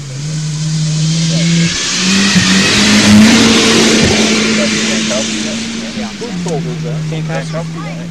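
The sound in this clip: Turbocharged car engine revving hard, a loud sustained mid-pitched drone that holds and climbs slightly before dipping near the end, with people talking over it.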